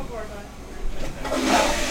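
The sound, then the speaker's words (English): A ceremonial first flush of a newly opened public toilet: a rushing, swelling gush of water rises midway and keeps roaring, with people talking over it. “Mayor Keifer, holding a golden plunger, cut the ribbon, officially opening the loo, and christened it with a ceremonial first flush”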